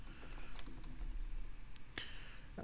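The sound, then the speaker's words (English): Rapid typing on a computer keyboard: a quick, dense run of many light keystroke clicks at low volume, with a few sharper taps standing out near the end. “So I'm trying to type fast.”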